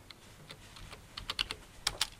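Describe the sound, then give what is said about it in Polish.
Keyboard typing while writing down the day's events. Faint, irregular key taps start sparse, then give way to a quicker run of sharper clicks toward the end. “Piszę. Muszę zapisać to, co się dzisiaj wydarzyło.”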